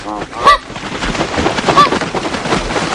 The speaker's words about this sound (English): That's the sound of the film Winged Migration, a documentary that followed migratory birds.